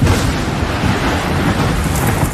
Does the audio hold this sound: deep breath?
no